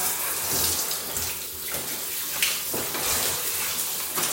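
Conditioner is rinsed out of hair under running water, a loud, steady rush of tap water with uneven splashing that carries on throughout, with no voices.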